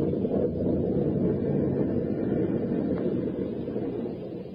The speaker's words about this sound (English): A mad killer lurked in the shadows aboard a storm-tossed boat.